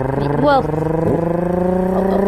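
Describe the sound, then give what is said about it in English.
A spaceship's engines firing up in a sci-fi story: a steady buzzing drone rich in harmonics, with short warbling pitch bends that come and go over the hum. “the ship is starting to fire up its engines.”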